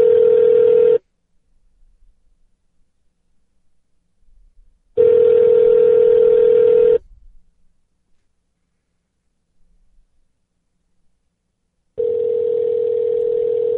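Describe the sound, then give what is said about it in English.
Ringback tone on an outgoing phone call: three bursts of a steady mid-pitched ring separated by long silent gaps, loud and alone with no talking. “How could they not be answering? They just told me to call them.”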